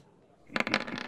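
Dice rattle and tumble in a tabletop race game, a brief burst of quick, light clicking clatter lasting about half a second after a quiet start.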